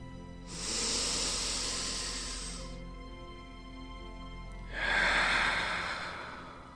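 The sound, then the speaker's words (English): Slow, deliberate breathing in two long, soft, airy breaths: an inhale, then, after a pause of about two seconds, an exhale. Each is a steady hiss, quiet and alone with no talk. “Take a breath. I'm inhaling. I'm exhaling.”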